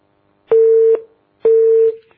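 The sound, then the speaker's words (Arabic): A telephone line tone sounds as a caller connects: two identical steady electronic beeps, each about half a second long, on a single low-mid pitch, separated by a short silent gap. “طب نأخذ اتصال شيخنا أم محمد من الإسكندرية”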